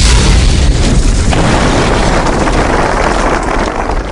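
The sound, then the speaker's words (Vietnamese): A gunpowder charge packed in a bamboo tube blasts a hole in a sheer cliff face, a deep, loud boom whose rumbling roar fills the opening and slowly fades. “Oanh một tiếng rung trời. Vách đá lõm vào một lỗ lớn, đá vụn văng rất xa.”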